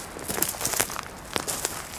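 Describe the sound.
Faint footsteps crunch along a narrow path in a V-shaped river valley. A few soft, uneven steps land with small crackling scuffs.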